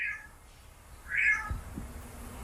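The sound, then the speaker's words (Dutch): Cat-like mewing from a jay mimicking a cat's meow: two short nasal cries, the second louder, over a low steady background hum. “Is het een gaai? Ja, je denkt een kat, maar nee, het is een gaai.”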